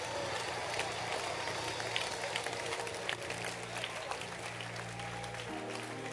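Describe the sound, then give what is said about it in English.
A church audience applauds, with dense, steady clapping from many hands continuing at an even level throughout. “Applaudissez pour Jésus. Acclamez.”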